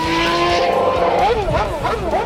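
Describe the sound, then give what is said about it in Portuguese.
A Stock Car race car accelerates on a pole-position lap in the 2022 season, its loud engine whine climbing and dropping in pitch through several quick gear changes. “E a gente deixou o mais rápido para o fim, o pole position agora no Bandeirada. Acelera daí”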